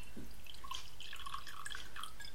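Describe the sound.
Water being poured comes through as a faint, continuous trickle dotted with bright little drips and splashes over a steady background hiss.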